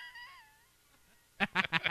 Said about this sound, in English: you ugly cat. That's a really good sound effect.